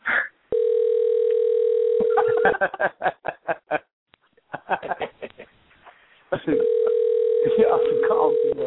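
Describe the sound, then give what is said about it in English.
An unanswered phone call ringing: two long, steady ringback tones separated by a pause, with people snickering and chuckling in the gap between them. “They're not going to answer the phone.”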